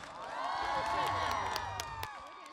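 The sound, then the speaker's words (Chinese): Audience at a live stage event cheers, whoops and claps for a performer. Excited voices swell in a dense, steady mass with a few sharp claps, then ease off near the end. “来，我们掌声给许玉珍”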